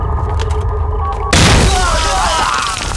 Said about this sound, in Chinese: 他们放炮啊！ 什么炮？那是地雷